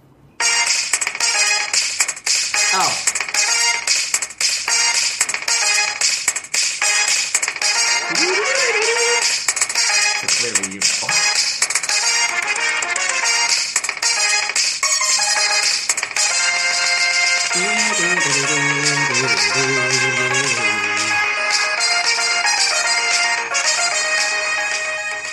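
Synthesized soundtrack music from the SNES racing game F-Zero plays the Big Blue theme, with a bright, driving melody over a fast, steady beat. It is loud and continuous, with no talk.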